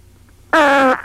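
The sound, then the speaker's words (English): Fart made on command: a single short, buzzy, tonal blast lasting under half a second, loud and steady in pitch, cutting off abruptly. “Whenever I'm in a public place and I feel it necessary, I can fart on command.”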